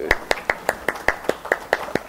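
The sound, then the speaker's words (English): Hands clapping for a round of applause: eleven sharp, crisp claps in a steady, even rhythm of about five per second, with nothing else heard. “Let's give Sarah a round of applause”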